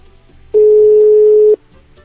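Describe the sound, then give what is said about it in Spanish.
A telephone call connecting, marked by a single steady electronic tone: one flat, mid-pitched beep of about a second, loud and alone against near silence. “Vamos, ya se enlazó la llamada y la atendemos.”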